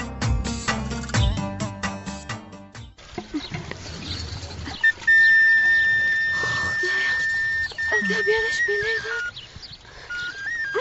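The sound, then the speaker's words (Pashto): A sad melody plays on a shepherd's flute near a spring. After a denser musical passage, a thin, high, clear tone holds long sustained notes with slight bends, fairly loud above low background noise. “له بلې خوا د چینی له شاوخوا د شپېلۍ د غمجنې نغمې غږ راځي.”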